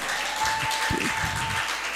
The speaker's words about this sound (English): Put your hands together for Jesus as you welcome our pastor.